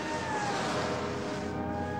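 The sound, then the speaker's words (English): A police car driving along a mountain road, a steady, even hum of engine and road noise with some wind, holding the same level for the whole stretch without a clear pass-by swell. “Meanwhile, the police car passes with Clovis on a mountain road. Lassie makes her way up to the same road just as the car rounds a bend.”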